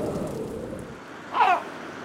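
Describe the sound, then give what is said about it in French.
Stormy weather over the Pacific Ocean in fog, a low rumbling wash of noise that swells into a short surging whoosh midway, then settles back to a steady roar. “Gilbert et sa petite fille Charlotte navigue sur l'océan Pacifique. Pris dans le brouillard et la tempête”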